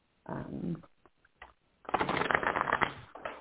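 Playing cards are shuffled: a few short, scattered riffling bursts, then a longer, louder, dense flurry of flicking cards.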